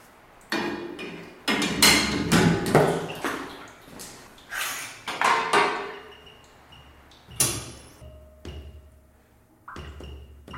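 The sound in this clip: A metal stirrer is put back into curd and whey in a cheese vat, making many heavy metallic clunks and thuds at an uneven pace. A few of the hits carry a brief ringing tone.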